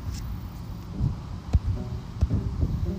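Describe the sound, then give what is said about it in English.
Wind blows outdoors, buffeting in a low, steady rumble broken by a few soft gusting thumps. No one speaks. “As we sit here and just listen to the wind and just soak in all the positivity”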